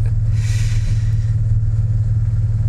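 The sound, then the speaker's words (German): Taxi engine humming as the car drives slowly, a steady low drone with even, constant loudness and no revving or gear changes. “Ich fahre langsam, ja? Im Fluss wollen wir nicht gerade landen mit dem Taxi, was?”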